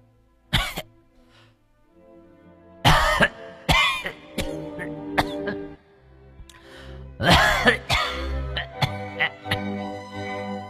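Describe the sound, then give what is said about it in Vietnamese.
A mother-in-law coughs hard in the inner room: a series of loud, harsh, raspy coughing bursts in uneven clusters, separated by short pauses, with no talk. “nhát thấy tiếng mẹ chồng ho sù sụ ở trong buồng thì nguýt dài một cái.”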